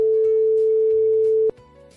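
A telephone ringback tone plays while a call is placed to a wholesale carp seller. It is a steady, single-pitch electronic tone that holds for about a second and a half, then cuts off abruptly, leaving quieter low background sound.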